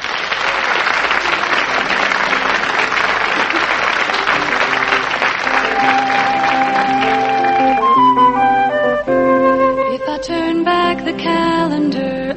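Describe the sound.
Audience applause welcomes a singer onto the stage, a loud, dense clapping that fills the first several seconds, then music rises beneath it and takes over as the clapping thins out.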